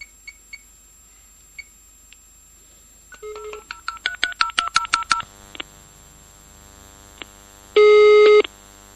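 A touch-tone telephone dials a technical support line: a few faint clicks, then a rapid string of many DTMF beeps, followed by a loud steady ringing tone near the end.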